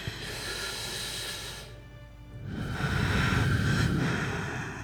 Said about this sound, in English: I put my hand on her shoulder and I say, "Breathe with me."